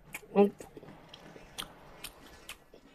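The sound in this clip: Crunchy bites into a bread roll: one louder bite with a brief hummed voice early on, then a few lighter crackles and soft chewing sounds.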